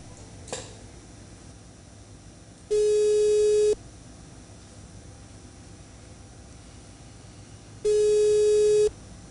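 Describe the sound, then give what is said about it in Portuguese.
Telephone hold tone during a call transfer to a pharmacist: two long, steady, buzzing beeps about five seconds apart, each lasting roughly a second, over a faint hiss. “Peço que o senhor aguarde em linha, que estou transferindo a ligação para o farmacêutico, senhor Will.”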